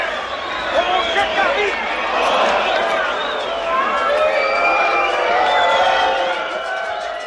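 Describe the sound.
A crowd gathered outside a door, many excited voices shouting and calling over one another in a sustained, fairly loud clamor that swells and holds.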